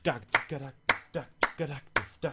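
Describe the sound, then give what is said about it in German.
Hands clap along to a drumbeat-style rhythm with sharp, crisp claps at a steady tempo. Louder and softer claps alternate, with a faint tonal sound between them. “Okay, ihr habt höchstwahrscheinlich folgendermaßen mitgeklatscht.”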